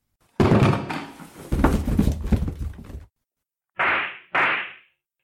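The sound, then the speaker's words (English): A wooden crate is set down: about three seconds of loud, rough scraping and thumping, then after a short pause two brief, sharp bursts, with no voices. “Put down the crate.”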